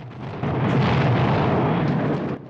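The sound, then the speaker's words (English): Heavy gunfire from a big gun during a battle: a loud, sustained rumbling roar that swells after a quieter start and eases slightly at the end, without distinct separate shots. “One of the guns is still firing, and a squad of men with Harker try to get close enough to machine gun the operators.”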